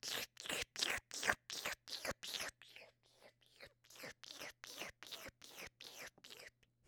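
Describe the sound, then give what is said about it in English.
Wet licking and sucking on a super big, round rainbow unicorn lollipop: many soft, rhythmic mouth smacks in quick succession over a faint steady hum. “I'm having a lollipop right now, so I'm just like...”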